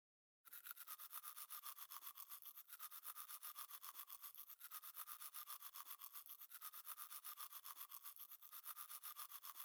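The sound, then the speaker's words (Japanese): Teeth are brushed with a toothbrush in a long run of steady, even back-and-forth scrubbing strokes, soft and continuous with no talk. “口を開けて。ゆっくり、磨いていくからね。”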